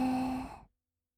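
A single deep breath drawn in during a guided relaxation exercise: a short, soft, breathy rush with a faint voiced tone, lasting under a second before silence.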